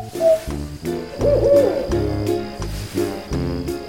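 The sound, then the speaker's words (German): An owl hoots repeatedly, with low, loud calls in a steady, recurring pattern and no talk over them. “Welches Tier suchen wir? Ich sag es dir. Die Eule.”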